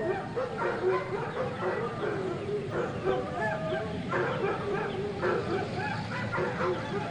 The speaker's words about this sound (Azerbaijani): Bugün üçün seçdiyimiz heyvan itdi. Bugün bu heyvanın izini folklorumuzda araşdırmaq qərarına gəlmişik.